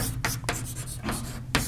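Writing on a board during a lecture, heard as a few short scratchy strokes separated by pauses, each a brief rough burst over a steady low hum, with no voices.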